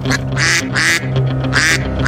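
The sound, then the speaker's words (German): Duck quacking as a sound effect: several loud, raspy quacks come in quick succession, separated by short gaps. “Und diese Enten, die sind sowas von on fire.”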